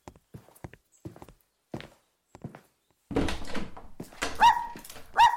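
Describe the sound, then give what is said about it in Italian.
A small pet dog at home: a few light taps and steps, then a louder scuffling burst followed by two brief high-pitched yips or whines. “Ah, ma non sapevo che avesse un cagnolino.”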